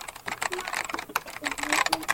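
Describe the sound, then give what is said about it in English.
Rapid clattering keystrokes on a computer keyboard run continuously as someone types, the uneven tapping heard under a talking voice. “I just wanted to let you know I'm typing in the computer right now”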